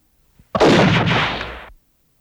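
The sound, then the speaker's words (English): A single gunshot is fired into a pillow: a loud, sharp blast with a broad, noisy body that rings on and decays slowly for about a second before cutting off. “I shot it in the pillow. I said I shot it in the pillow. At the last second, I pulled it away from my head and stuck it into the pillow.”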